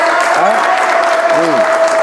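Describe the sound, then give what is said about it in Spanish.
An audience at a comedy show applauds: steady, loud, dense clapping that fills the whole clip without a break. “Aplauso para Rona, que se ha administrado bien.”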